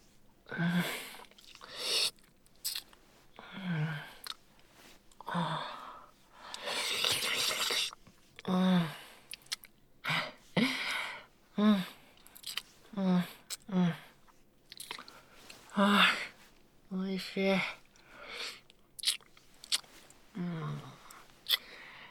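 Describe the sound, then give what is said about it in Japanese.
Wet licking and slurping mouth sounds come in many short bursts with irregular gaps between them. “こうやって舐めるの大好きだから、もっといっぱい舐めさせて。”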